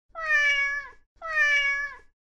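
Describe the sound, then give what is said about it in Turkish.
Two drawn-out meows from a cat, each about a second long, holding a steady pitch that dips slightly at the end. A short pause separates them, and no other sounds are present. “diye miyavlıyor.”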